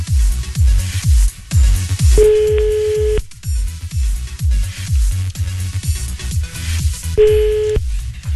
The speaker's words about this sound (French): C'est parti. Ça sonne.